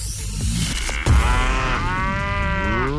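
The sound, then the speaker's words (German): A cow moos, played as a radio prize-game cue: a loud, long, drawn-out low bellow with a steady buzzing tone that holds for a couple of seconds, with no talk over it. “Achtet einfach auf das Enjoy Moo Geräusch bei uns im Radio, das ist das hier.”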